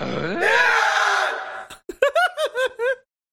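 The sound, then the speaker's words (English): A voice imitates Tim Allen's grunting scream, starting with a long, rising, strained groan and breaking into a quick series of short, clipped grunts before cutting to silence. “Tim Allen scream.”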